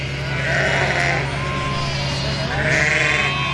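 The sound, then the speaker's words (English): Lambs bleating on a Gingin farm where they are fattened on second-grade carrots: two drawn-out, wavering bleats over a low, steady hum. “Sean Murphy's report about a Gingin farm using that second-grade carrots to fatten up lambs”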